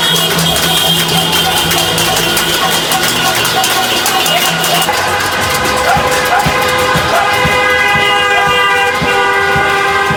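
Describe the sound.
Car horns honk in a street protest against the military coup in Myanmar: many loud, overlapping toots and sustained blasts sound continuously throughout.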